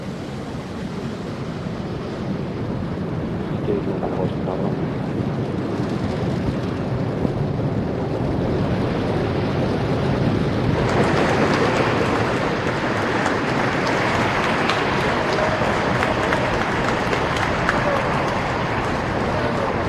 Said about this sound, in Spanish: El Falcon 9, que es el lanzador del SAOCON 1B, ya está partiendo al espacio.